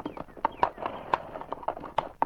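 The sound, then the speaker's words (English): Horse hooves clip-clopping up a hill along a trail: a brisk, fairly even run of many sharp hoof knocks, moderately faint, with small swells in loudness from beat to beat. “As Constable Redmond reached the top of the hill, he halted his horse”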